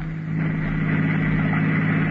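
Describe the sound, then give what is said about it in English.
A car driving at night: a steady, low engine drone with a constant hum and no breaks. “I always enjoy driving. It was a nice night for it.”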